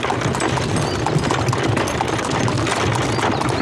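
Hooves clip-clop as a horse-drawn carriage travels, the sound merged into a steady, dense wash of rumbling and clatter that runs without pause.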